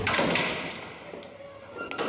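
A door being shut and locked: a heavy closing sound followed by a few faint clicks and knocks, with no talk over it.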